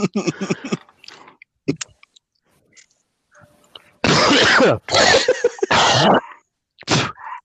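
Harsh, phlegmy coughing and throat clearing, heard as a few loud, rough bursts packed close together after some quieter throat and mouth noises at the start.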